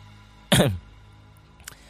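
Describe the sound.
A man clearing his throat with a single short, rough burst, followed by quiet and a faint, brief second sound near the end.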